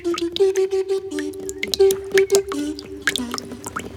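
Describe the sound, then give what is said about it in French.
Water dripping, standing in for tears falling into a small puddle: many quick, bright plinks in an irregular rhythm over a sustained low tone. “Une larme. Deux larmes. Trois larmes.”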